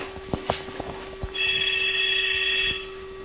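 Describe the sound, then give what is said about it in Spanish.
A telephone rings with one sustained, high electronic trill that lasts over a second. A few faint clicks and knocks come before it. “O el puto teléfono, espera.”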